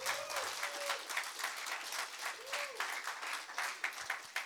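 Sustained applause from a church audience welcoming a guest pastor to the front, a dense, steady wash of many hands clapping at a fairly even loudness throughout.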